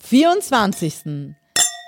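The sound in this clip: Glasses clink together in a toast after a stretch of talking, giving one bright, sharp chime whose high ringing tones linger briefly.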